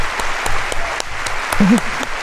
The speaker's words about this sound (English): And what happened? There's the crowd. Woo!